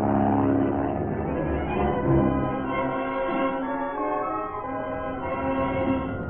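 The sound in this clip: Steady engine drone of a small airplane in flight, a continuous, fairly loud hum with a constant pitch that holds throughout, with no voices.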